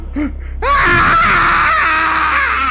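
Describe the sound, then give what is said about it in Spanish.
An old man's scream of horror: a loud, sustained wailing cry that bursts in suddenly after a brief quieter vocal sound and holds strong with wavering pitch to the end. “El viejo lanzó de pronto un alarido que casi me hizo perder el sentido.”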